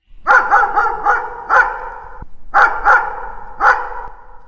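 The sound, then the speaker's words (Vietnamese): A dog barks loudly out in a farm field, chasing crows away. The barks come in a quick run of sharp, high yaps, stop briefly, then resume in a few more loud bursts. “con chó nó bắt đầu sủa inh ỏi lên”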